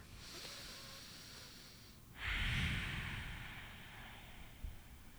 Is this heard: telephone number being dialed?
no

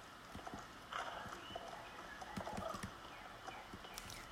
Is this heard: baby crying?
no

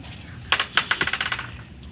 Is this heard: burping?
no

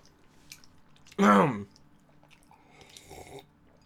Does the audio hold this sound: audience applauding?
no

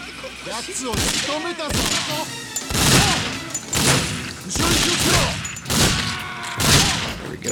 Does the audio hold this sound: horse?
no

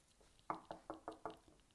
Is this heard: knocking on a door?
yes

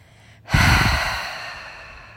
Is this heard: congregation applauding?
no

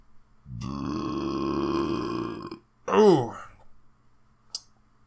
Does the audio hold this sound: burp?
yes

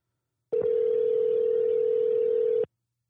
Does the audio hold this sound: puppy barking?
no

